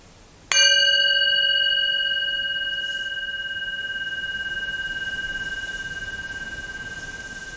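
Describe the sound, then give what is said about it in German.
A singing bowl is struck once, giving a sharp attack followed by a clear, sustained ring of several pure tones that slowly decays over several seconds in near silence. “Und wenn ich jetzt die Klangschale schlage, beginnt die Meditation.”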